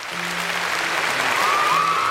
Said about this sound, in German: Einen donnernden Applaus, den es nach der Show von Holiday on Ice auf jeden Fall zu hören gibt.